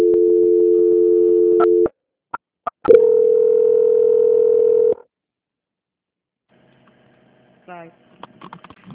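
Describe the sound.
Telephone call-transfer tones: a steady low tone for about two seconds, a couple of short clicks, then another steady tone of similar length, followed by silence and a brief faint chirp near the end.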